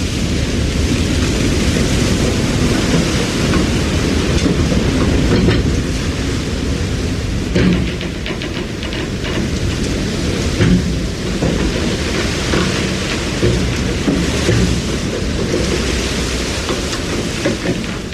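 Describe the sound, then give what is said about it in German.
Storm waves wash over the stern of a fishing trawler on a voyage to East Greenland amid snow and cold, a loud, continuous roaring wash with rumbling surges and spattering water throughout, no voices. “Die Matrosen gehen nach hinten. In die Wellen, die auf das Heck spülen, in den Schnee, in die Kälte, in den Sturm.”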